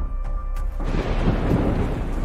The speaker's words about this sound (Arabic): يا ساتر يا رب، اللهم احفظنا. مش قلتلكوا هم بيختلقوا برق ورعد وامطار صناعيه عشان يوقفوني عشان ما كملش؟